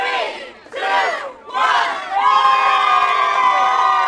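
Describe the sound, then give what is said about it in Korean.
A crowd of Black Friday shoppers outside a store at dawn shouts in unison in a few short bursts, like a countdown, then breaks into loud, sustained cheering and whooping as the doors open. “블랙 프라이데이 당일 새벽 문 앞에 길게 줄을 서 있는 사람들이 이 상점이 문을 여는 시간을 기다리며 5, 4, 3, 2, 1 함께 세고는 이 상점 문이 열리자마자 환호성을 지르며 가게 안으로”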